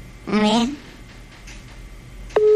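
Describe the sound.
A telephone ringback tone from a call that goes unanswered: a loud, steady, even-pitched tone begins near the end, after a brief voice-like sound early on.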